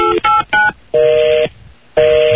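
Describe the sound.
Touch-tone telephone dialling: five beeps, three short ones in quick succession followed by two longer tones with gaps between them, loud and clear.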